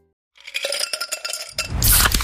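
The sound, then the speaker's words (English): Zero sugar cola (Pepsi Zero Sugar) clinks sharply a number of times, then breaks into a loud, rushing hiss of fizz that holds strong to the end. “You hear that? That's the sound of Pepsi Zero Sugar.”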